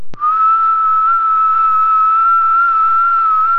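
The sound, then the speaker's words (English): A person gives a low whistled call that imitates a robin. It is a single loud, steady, pure tone held for over three seconds, with a brief click at the start and no talking. “He made one of his low, whistling calls”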